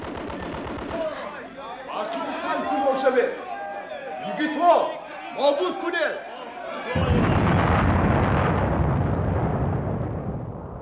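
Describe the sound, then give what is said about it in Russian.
An explosion blows up a cave entrance in a battle scene. Shouting voices come first, then a broad, loud roar breaks in and holds steady for about four seconds to the end. “Там взрыв. Они взорвали вход в пещеру, полковник.”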